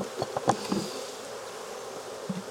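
Honey bees buzz at an opened hive during beekeeping: a faint, steady insect drone with a few brief knocks near the start, and no voices.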